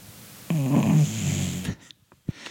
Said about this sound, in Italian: abbiamo ospite il cane che russa